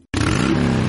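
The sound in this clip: A motorcycle engine revs for the Digby motorcycle rally, bursting in suddenly after a moment of silence and holding a loud, steady, throaty roar to the end.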